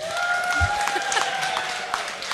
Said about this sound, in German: Und die linke Seite jubelt.